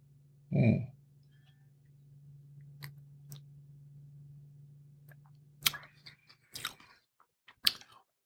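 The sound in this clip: Tasting Romanian Pinot Noir red wine: one audible sip and slurp, then a faint, steady low hum, followed by a few soft mouth smacks and clicks as the wine is swished. The sounds are quiet overall.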